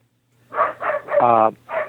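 Four short dog barks or yips, mid-pitched and fairly loud, come one after another with brief gaps. The third is noticeably longer and more tonal than the others.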